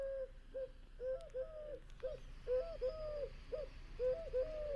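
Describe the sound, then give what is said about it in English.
Eurasian collared dove cooing, a series of soft, hollow, low-pitched coos repeated in short phrases with a steady rhythm, clear over a quiet background with no voices. “we've got Eurasian collared doves, and they sound something like this.”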